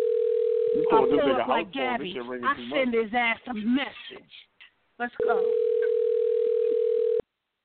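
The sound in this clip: A steady, unbroken telephone tone from an unanswered call. A man talks over its first second, and after a silent gap the tone returns alone for about two seconds before cutting off abruptly.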